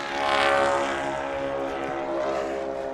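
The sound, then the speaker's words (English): Propeller engines of a three-engine tri-motor airplane run in a steady, rich drone, swelling slightly at first and then holding even and loud throughout. “That's a great sound, right? The tri-motor is an awesome airplane.”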